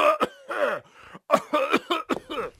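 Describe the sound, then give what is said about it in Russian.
A man coughs and clears his throat in a quick series of harsh, throaty bursts. The sounds come in an uneven rhythm with short gaps and are fairly faint, with no other sounds. “Действительно, Вася два раза кашлянул,”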